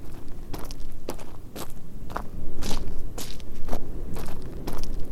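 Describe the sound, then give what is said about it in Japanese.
Quick footsteps of someone running toward the listeners inside a castle: a rapid series of many sharp, thudding steps with crisp clicks, growing slightly louder in the second half. “あら、何者かがかけてきますよ。”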